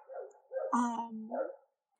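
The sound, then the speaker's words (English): Dogs let out drawn-out, wavering tonal cries in a few bursts. The middle one is the loudest and richest, and then the sound stops. “I think you can hear my dogs.”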